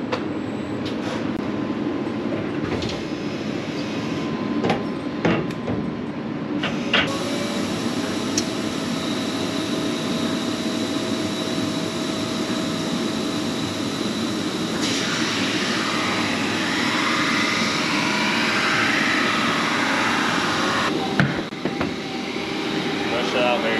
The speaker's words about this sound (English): All right, so now that the skis are in place, we're gonna set up the machine and get them grinding.